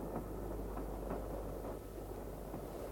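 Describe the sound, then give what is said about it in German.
A train travels slowly with a faint, steady low rumble and soft, loosely rhythmic knocks running through it. No voices are heard. “Der Zug fährt langsam.”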